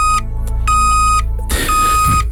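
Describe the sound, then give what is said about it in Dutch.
Warning beeps from a reversing car: a few loud, steady electronic tones repeating at an even pitch, the last one overlaid with a rushing noise. “Een achteruitrijdende auto.”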